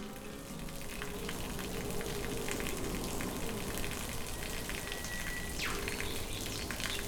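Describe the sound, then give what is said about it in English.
Water rushing steadily from a waterfall into a rainforest gorge in a national park, a constant, even wash of noise that stays fairly faint throughout with no voices. “You can hear the birds chirping, the leaves rustling, the water flowing. It's magic.”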